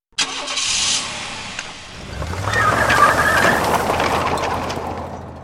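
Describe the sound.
A car engine starts with a sharp burst, then settles into a low rumble that swells and holds steady as the car drives off.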